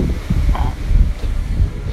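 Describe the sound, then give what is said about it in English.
Wind buffets a microphone outdoors, producing a steady low rumble with uneven gusts that swell and ease throughout. “All right, I'm out of the wind now.”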